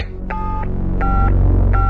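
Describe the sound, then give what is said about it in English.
Telephone keypad dialing for a call: three evenly spaced two-tone beeps, the last one cut short, sound clearly over a low, steady droning background. “But a seemingly innocent phone call turned to danger.”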